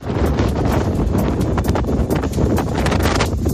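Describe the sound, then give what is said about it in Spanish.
Strong wind from a storm sweeps over Galicia, a loud, steady rushing roar with gusty crackling buffets and no break across the whole stretch. “A esta hora sopla con fuerza el viento en Galicia y en toda la cordillera cantábrica.”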